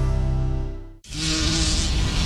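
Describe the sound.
A bee buzzing in a loud, steady, droning hum that drops out for a moment midway, then returns rougher and hissier until the end.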